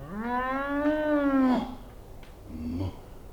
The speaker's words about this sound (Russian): дверь комнаты приоткрылась, и оттуда выглянула корова.